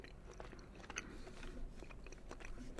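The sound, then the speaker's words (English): Crunchy chewing of caramel corn, a continuous run of many small bites and crackles with no pauses, faint throughout and with no talking. “She wanted to give me the one that she's pretty confident is actually caramel corn so that I could taste the difference between the two.”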